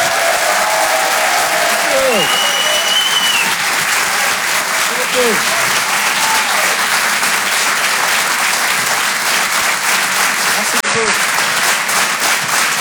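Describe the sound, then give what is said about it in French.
Sustained, vigorous applause from a comedy show audience continues steadily for the whole stretch, with voices speaking over it. “Je vous demande d'applaudir très fort s'il vous plaît”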